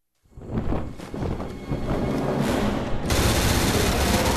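Gunfire in a video game starts with a few sharp bursts of shots, then merges into a dense, continuous rattle that grows slightly louder and harsher toward the end.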